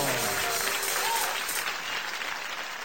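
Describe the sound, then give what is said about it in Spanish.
Audience applause at a live dance-band show honoring mothers: a dense, steady wash of hand clapping that thins and fades slightly toward the end, with no clear talk. “Muchísimas gracias por los aplausos.”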